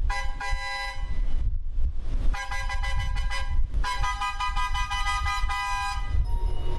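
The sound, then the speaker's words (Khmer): A train horn sounds at a railway station in Phnom Penh, signalling departure: long, loud, rich harmonic blasts with brief breaks between them, steady in pitch, over a constant low rumble. “ស្ថិតក្នុងស្ថានីយ៍រាជាយស្ម័យយានភ្នំពេញសំឡេងស៊ីផ្លេចេញពីរថភ្លើងមួយគ្រឿងដែលជាសញ្ញានៃការចេញដំណើររថភ្លើង”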